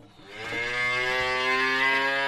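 A single cow moos in Rwanda, a long, even, harmonic lowing that swells at the start and then holds steady to the end.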